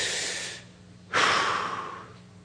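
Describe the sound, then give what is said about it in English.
People taking a deep breath: a long, airy rush of breath fades away, then after a short lull a sudden, louder breath bursts in and slowly tails off. “Should everybody take a deep breath?”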